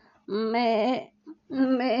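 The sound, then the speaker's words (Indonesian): Two wavering, nasal bleats of a goat, with a lower fundamental and bright harmonics. A long quavering cry comes first, then after a short gap a second bleat begins and is still going at the end, heard in a children's story about sheep. “Kambing. Oh iya, itu mah kambing.”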